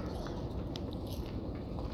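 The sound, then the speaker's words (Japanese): Chewing of a FamilyMart chocolate snack, a dense, continuous crunching and munching that stays at a steady loudness throughout. “私はファミリーマートのチョコシを食べるね”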